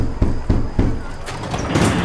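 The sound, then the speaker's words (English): Three evenly spaced knocks land on a pea-green metal door in a garbage-strewn alley, followed by a stretch of duller rustling noise. “She stayed close to me as I knocked on the pea-green metal door.”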